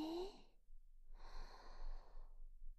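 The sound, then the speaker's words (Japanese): A faint, long deep inhale during a breathing exercise, heard as a soft steady rush of air that follows a brief breathy sound at the start. “さあ、いつものように深呼吸をどうぞ。吸って”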